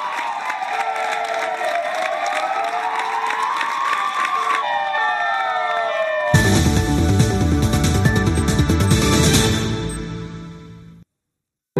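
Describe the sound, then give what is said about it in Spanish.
Health workers outside a hospital applaud and cheer during the coronavirus crisis, after wailing sirens sweep up and down. A loud mix of clapping and cheering then takes over, and the noise fades out near the end. “Los sanitarios lo han recibido en la calle, en la entrada del centro también, como ven, con aplausos.”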